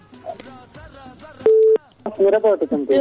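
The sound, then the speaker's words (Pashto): A single steady electronic telephone tone sounds for about a third of a second, the kind heard on a busy line, surrounded by voices talking before and after it. “دا دغه غږم پکې راځي که نه دا د تلیفون د مصروفوالي دا تلیفون لږ مصروفه ده داسې مزاحمت کوي”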